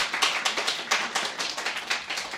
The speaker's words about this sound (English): I will transmit your applause to Wang Xiaoni, who deserves it.